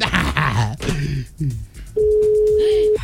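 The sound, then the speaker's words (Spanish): Voices talk, then a steady, even telephone tone sounds loudly for about a second as a phone number is dialed. “¡Marcando!”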